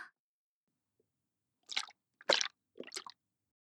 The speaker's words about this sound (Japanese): トプトプトプって、すごくトロトロした音がするでしょ？